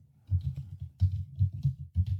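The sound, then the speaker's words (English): Typing on a computer keyboard while logging in to a password manager: many quick, crisp key clicks in irregular bursts with short pauses between them, heard alone without talk. “Oh, I know you like the typing. It's your favorite thing.”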